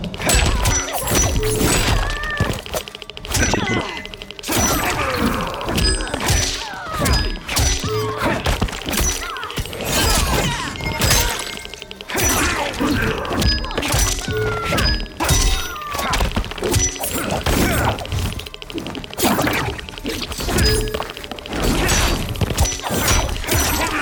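Katana and axe attacks and fire breath in a fighting video game special move: a loud, continuous barrage of heavy thuds, whacks and crashing hits, many overlapping impacts with no talk.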